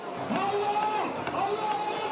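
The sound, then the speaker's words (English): Crowds celebrate in Tahrir Square amid reports that Mubarak is stepping down. A dense, continuous roar of many voices fills the air, with some higher tones rising above the mass of noise. “That's the sound of Tahrir Square amid reports that Mubarak may be stepping down. As crowds celebrate the news”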